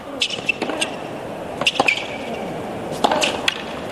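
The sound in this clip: Tennis ball struck by a racket during a professional match, a few sharp, crisp cracks spaced apart, heard under a commentator's talk.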